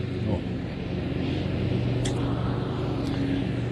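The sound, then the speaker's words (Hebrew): A tractor mowing grass gives a steady, low engine drone that holds an even level throughout, with a couple of faint, brief clicks over the hum. “אז בואו ננצל סיבוב אחרון של הטרקטור פה, שקוצץ את הדשא לנשימה.”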